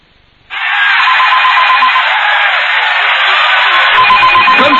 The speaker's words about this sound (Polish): telefon do ciebie